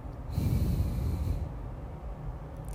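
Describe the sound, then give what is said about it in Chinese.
A gentle nasal exhale after a held breath: one soft, breathy rush of air lasting about a second, then trailing off into quiet breath noise. “闭气到你觉得受不了的时候，再轻轻的从鼻子吐气。”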